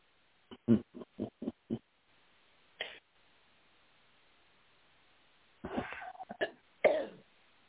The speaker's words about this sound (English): Choke a little. Excuse me.